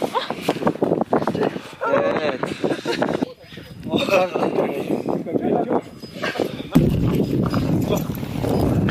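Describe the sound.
Horse hooves clip-clop as horses are ridden through a muddy high-altitude alpine wetland at a river's source. Steady, fairly loud hoofbeats run under continuous talk throughout.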